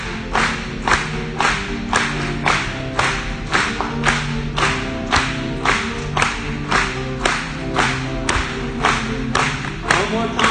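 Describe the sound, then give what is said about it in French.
Hands clap together in a steady, regular beat over music, many sharp claps repeating at an even pace for the whole stretch with no pause. “Une fois de plus, continue à frapper les mains.”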